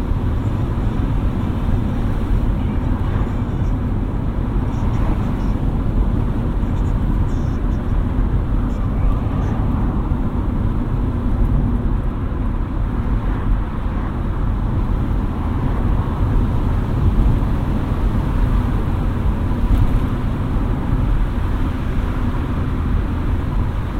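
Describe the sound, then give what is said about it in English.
A convertible car drives with its top down on a late-summer morning. A steady, loud roar of wind and road noise holds at an even level throughout, with no clear breaks. “On a beautiful late summer's Saturday morning. Perfect conditions for a top-down drive.”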